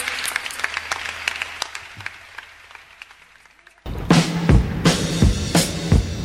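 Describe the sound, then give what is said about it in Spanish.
An audience applauds with steady scattered clapping that slowly fades over a few seconds, then is cut off abruptly by a louder, different sound. “Paula Dida, un aplauso muy grande.”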